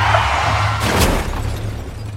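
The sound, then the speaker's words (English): A car crashes into a minibus while driving through a wood where visibility is poor: a steady low engine hum runs throughout, broken by one loud, broad crash near the middle, after which the hum continues. “You crashed into the pensioner's minibus.”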